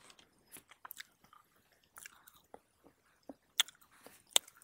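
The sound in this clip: Bar snacks being chewed and crunched alongside drinks: quiet, irregular crisp bites and wet munching clicks, with a few sharper crunches toward the end.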